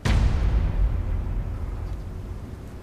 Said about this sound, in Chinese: 开枪。开枪，打呀！